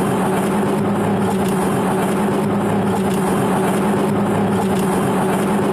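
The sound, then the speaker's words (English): A car tire with a flat spot rolls along the road, giving a steady roar of road and engine noise with a soft, rhythmic whop repeating about once a second. “you're listening to a tire that has a flat spot in it. And so it is whop, whop, whopping, not because it has no air, but because there's a part of the tire that's whopping on the ground that you're actually hearing”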